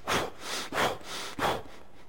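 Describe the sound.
Wim Hof method breathing: three forceful, rushing breaths in a steady rhythm, each a loud airy burst that fades before the next.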